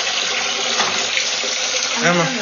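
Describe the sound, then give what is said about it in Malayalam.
Milk poured from a packet into a pot for making tea, a continuous splashing gush of liquid that stays level and fairly loud throughout. “അമ്മ ഇവിടെ പാത്രത്തില് പാൽ പൊട്ടിച്ചൊഴിക്കുകയാണ്”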